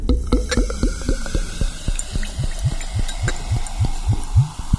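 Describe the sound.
Beer glugs as it is poured from a bottle into a glass, a long run of many quick, rhythmic gulps with soft splashing underneath, fairly loud and steady, with no voices.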